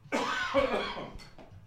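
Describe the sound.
Coughing after choking on a peanut: a harsh, rasping cough burst followed by two short, weaker coughs as the fit tails off.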